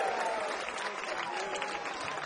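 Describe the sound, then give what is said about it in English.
An audience applauds at a live performance with dense, steady clapping that stays loud and even throughout. “Maybe another nice round of applause”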